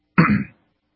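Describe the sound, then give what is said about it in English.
A single short throat clearing, a rough, gravelly burst of under half a second heard on its own with silence before and after. “I've got the busy throat, so if you hear me clearing it a lot today, my apologies.”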